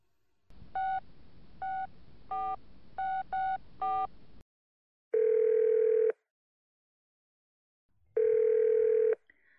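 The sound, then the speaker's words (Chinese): A telephone dial tone plays while a call is placed. Several short keypad beeps sound over a steady tone, followed by two long, even ringing tones separated by silence. “在打电话？和谁呀？哼，居然不和我汇报。就偷偷给人打电话。”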